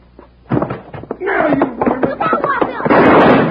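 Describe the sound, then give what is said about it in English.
A gunshot in a Western drama scene, heard as a sharp, loud bang followed by noisy, rumbling bursts, with a raised voice partway through and a harsh noisy burst at the end. “Hey, partner, settle down. You almost shot me.”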